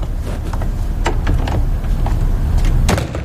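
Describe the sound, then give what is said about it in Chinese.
A door being shut, heard as a few sharp clunks and rattling knocks over steady low background noise. “你把门关上，把门关上，坐下来，我跟你谈点事儿。”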